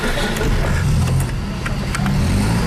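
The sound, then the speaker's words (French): Engine of an old black 1978 Citroën Type A with big headlights, running with a loud, steady low rumble and a few revving swells throughout. “Et bien plus de 40 ans après, sa Citroën belle noire avec ses gros phares démarre toujours et au quart de tour.”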